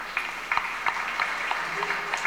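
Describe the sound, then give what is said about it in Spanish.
Applause from a gathering of community members: a soft, continuous wash of clapping with several sharper individual claps standing out at irregular moments. “Por ahí están otros hermanos, fuertes aplausos, hermanos.”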